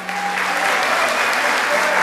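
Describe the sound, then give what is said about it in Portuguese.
Church audience applauding, a steady dense wash of clapping from many hands that holds at an even level throughout, with faint voices mixed in. “Se é verdade o seu coração, aplauda o Senhor.”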